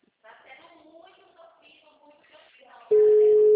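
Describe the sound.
A steady, single-pitched telephone tone sounds while placing a call, starting abruptly and holding loud and unbroken to the end, after a stretch of a person talking quietly.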